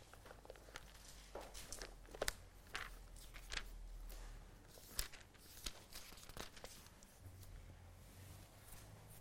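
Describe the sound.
Soft rustling and crinkling of Bible pages being turned to look up a verse in Isaiah. A few sharper paper flicks stand out from quiet, continuous handling noise over a low hum.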